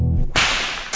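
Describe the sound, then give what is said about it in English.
Whip crack, the tip breaking the sound barrier in a tiny sonic boom: a single sharp, loud snap after a brief low swish, trailing into a fading hiss. “is a whip. The sound you just heard was literally a sonic boom,”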